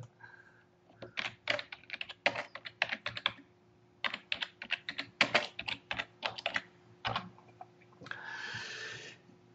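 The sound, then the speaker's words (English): Typing on a computer keyboard, with many quick, crisp key clicks in uneven bursts separated by short pauses, ending with a brief airy rushing noise. “So, it's hard to type and talk at the same time.”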